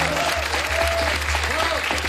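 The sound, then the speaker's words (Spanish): Applause from a live studio audience at a Spanish comedy show: dense, steady clapping throughout, with faint voices and a whistle-like tone mixed in. “¡Un aplauso para una persona que sabe algo!”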